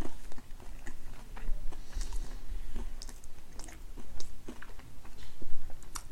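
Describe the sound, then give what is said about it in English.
Crunchy bites into a slice of homemade bread cut like a mini pizza slice: many sharp, crackly crunches scattered over quieter, continuous chewing. “It's kind of like a mini pizza slice he's cut. You might be able to hear the crunch.”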